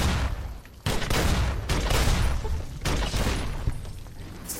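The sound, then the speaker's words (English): Mire Lurks unleash a sonic attack in a video game, a loud, dense roaring blast of noise that hits in a few abrupt surges, each one crashing in and rumbling on heavily. “Yep, they are indeed sonicking at me. Ooh, that one blowed up real good.”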